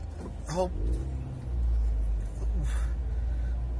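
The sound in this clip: Car engine and road rumble heard from inside a car as it heads onto a freeway, a steady low drone that swells partway through, with brief vocal sounds over it.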